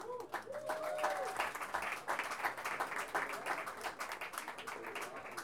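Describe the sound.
Audience applause at a feminist gathering as a guest is called forward: a moderate, continuous patter of many hands with voices mixed in throughout.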